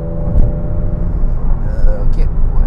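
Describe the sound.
A car engine accelerating in fifth gear at around 3,600 RPM, giving a steady, loud rumbling drone with a faint whine entering partway through.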